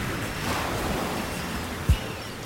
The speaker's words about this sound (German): Draußen regnete es in dünnen Fäden. Die Wellen schlugen auf den Strand und schäumten über die Bojen, das Geröll, den Sand